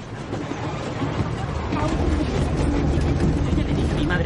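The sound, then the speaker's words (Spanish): A steam train moves along the tracks, pouring out a thick column of white smoke. Its deep, continuous rumble swells slightly and holds steady throughout. “El tren avanza expulsando una gruesa columna de humo blanco.”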